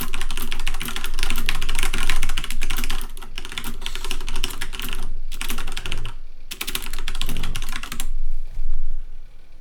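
Typing on a mechanical keyboard: a dense, continuous clatter of fast key clicks that runs almost the whole time, with a couple of very short pauses. It is loud and heard alone.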